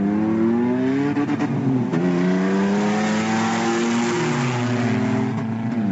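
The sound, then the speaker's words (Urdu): A rally jeep's engine revs during daytime testing on a desert rally track in Cholistan, giving a loud, continuous drone whose pitch climbs and dips as the throttle changes. “دن کے وقت rally کے track اور گاڑی کی آزمائش”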